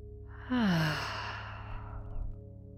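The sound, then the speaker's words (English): A single slow exhale out through the mouth during a 4-7-8 breathing exercise, opening with a brief voiced tone that falls in pitch, then trailing off into a long, soft, breathy rush of air. “Let's first inhale through the nose. Exhale out the mouth.”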